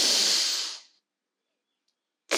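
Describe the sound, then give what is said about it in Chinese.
Deep inhale during a children's guided meditation: a loud, airy hiss that fades out within a second, followed by silence and a brief new burst of breath at the very end. “那现在就和姐姐一起来做三次的深吸及吐气喽。来，我们深深的吸气。”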